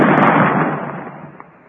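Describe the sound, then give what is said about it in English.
A single explosion from a lit fuse charge fired to try to make rain bursts loudly at the start, then its broad, rumbling roar decays over about a second and a half. “Get back. The fuse is lighted. Maybe this time we'll do it. Well, if it don't, we ain't going to let you fire it no more. You're scaring what few critters we got to the point where they're going to bust out in the corral.”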